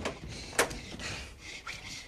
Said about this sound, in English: David rushes to close the door he entered from.